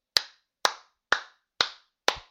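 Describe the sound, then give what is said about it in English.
Hand clapping: five sharp, loud single claps at a slow, even pace, evenly spaced with silence between them and no voices. “I think the microphone picked up that. That's a round of applause.”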